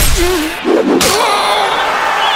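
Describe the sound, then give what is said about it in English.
A sharp, wet smack as someone is slapped with a smoked kipper fish, accompanied by a pained vocal cry. “Oh, did I forget to mention that I'm an expert kipper slapper?”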